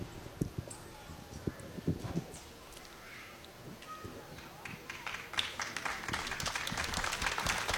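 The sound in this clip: Audience applause greets a young boy invited on stage at a ceremony. Scattered claps grow into fuller, denser clapping toward the end. A voice is heard at times.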